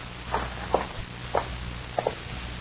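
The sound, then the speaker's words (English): A few faint footsteps walk into a cabin, soft uneven thuds spaced across a low, steady background. “Walk ahead of me into the cabin. Go on.”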